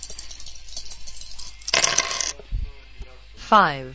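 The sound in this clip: A brief clattering rattle of dice rolling in a video game on the second roll, a bright burst of tumbling clicks standing out over a faint, steady background of game sound.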